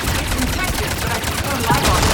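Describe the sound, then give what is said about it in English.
Dense, rapid gunfire from a video game battle, many sharp shots firing in quick bursts with no clear gap, loud and continuous across the whole stretch. “Shoot a bunch more bullets.”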